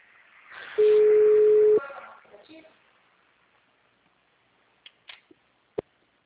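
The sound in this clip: A telephone line after a dropped call gives a single steady mid-pitched tone over faint hiss, followed by muffled line noise and a few sharp clicks.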